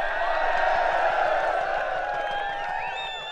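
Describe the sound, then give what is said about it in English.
Crowd noise at a baseball game, a dense murmur of many voices with sustained tonal sounds above it, the whole fading slightly at the end. “Well, you're right. That was the sound of a baseball game.”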